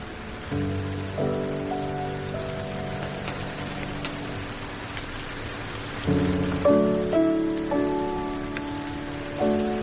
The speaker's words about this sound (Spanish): a través de la ventana se observa la tormenta que está cayendo